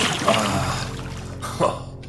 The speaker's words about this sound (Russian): Вернувшись со стаканом мутной воды, я вылил его на голову раненому.